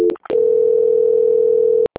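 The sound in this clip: A steady telephone ringing tone plays during a call transfer: one long, even, continuous tone at moderate loudness, preceded by a few short clicks and bursts and cut off abruptly at the end.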